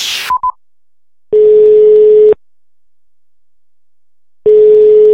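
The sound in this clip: Phone call being dialed and ringing: a brief burst and two quick higher beeps, then two steady, mid-pitched ringing tones about a second long, separated by a long silent gap.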